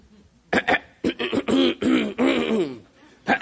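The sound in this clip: A voice imitating throat clearing during a church sermon about people giving at offering boxes, made of several short, rough voiced bursts in a choppy rhythm.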